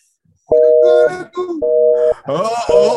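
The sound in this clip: Hang-up tones from a telephone call disconnecting after the phone was left off the hook: three steady electronic beeps, each about half a second long, alternating with a voice talking between and over them.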